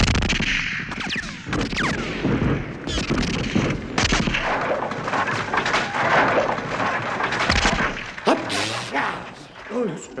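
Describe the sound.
Sharp bursts of submachine gunfire crack through a wartime house-clearing assault, with many rapid reports, booming thuds and whooshes over rumbling noise, and voices heard amid the shooting.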